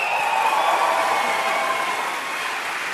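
An audience at a film festival event applauds to welcome a journalist guest, with dense, even clapping that holds steady throughout.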